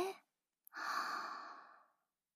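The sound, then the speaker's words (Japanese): A deep breath is drawn in as a long, steady airy hiss lasting over a second and fading gradually. A brief breath sound and a small mouth click come just before it. “一回深呼吸しましょうか。さあ、私と一緒に。はーい、吸って、”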